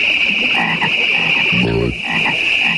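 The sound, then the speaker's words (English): A frog croaking in a Super Bowl beer commercial: one deep, low croak near the middle, set against a constant high-pitched chorus and dense background hum. “They had the frogs, right? You got the frogs? Let's take a listen.”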